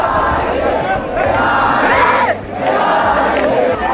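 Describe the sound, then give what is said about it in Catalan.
Loud crowd cheering and shouting at one of the first youth competition battles held at the Arc de Triomf in Barcelona, a roaring mass of voices that swells, dips briefly, then surges again. “Que jutjant pel que esteu escoltant podria ser qualsevol persona animant, sí, potser no, en un partit de futbol, eh? Aquest és el so, per això, d'una d'aquestes primeres batalles a la ciutat de Barcelona. L'escenari triat ha sigut l'Arc de Triomf.”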